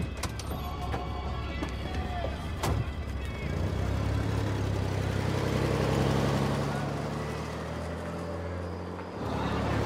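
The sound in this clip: A car engine runs with a low, steady rumble that swells in from about a third of the way in and holds to near the end, with some brief voices and clatter early on.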